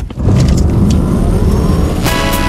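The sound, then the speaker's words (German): A Ford Puma car engine revs in a loud, steady roar that holds for about two seconds after a brief, quieter start, with no voices. “Vereinbaren Sie jetzt einen Termin für eine Probefahrt bei Ford. Und erleben Sie Abenteuer statt Alltag. Im Ford Puma.”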